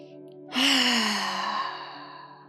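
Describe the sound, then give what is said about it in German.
One deep breath exhaled with a voiced sound during a relaxation exercise: a single long sigh that starts abruptly, carries an audible hum of voice that drifts slightly lower, and slowly fades out. “Atme nochmal so tief, dass du beim Ausatmen richtig einen Laut von dir geben kannst.”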